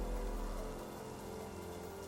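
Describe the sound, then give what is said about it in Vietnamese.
Heavy rain pours outside in a steady, dense hiss of drops striking surfaces, with a soft low rumble underneath. It stays fairly quiet and unbroken from start to finish, with no voices. “Bên ngoài, mưa vẫn đang tầm tã.”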